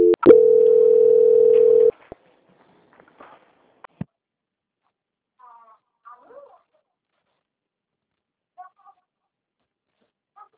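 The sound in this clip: A telephone call-transfer hold tone sounds as a single steady, loud electronic beep lasting nearly two seconds. Near silence follows on the line, broken only by a few faint clicks and small noises.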